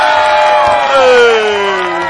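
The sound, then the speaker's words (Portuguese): Cheering and whooping from a studio audience welcoming a guest on a morning talk show: a loud, sustained cheer with a high whoop that slides downward in pitch. No distinct clapping stands out. “vamos dar uma salva de palmas à nossa Isidora”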